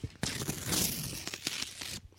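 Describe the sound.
Crinkling paper as an envelope is opened: a continuous run of tearing and rustling with several sharper rips, moderately loud, lasting about two seconds.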